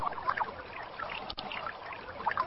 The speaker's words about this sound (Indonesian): dan pencucian kaki dimulai dari kanan terlebih dahulu sebanyak 3 kali, baru kemudian mencuci kaki kiri sebanyak 3 kali.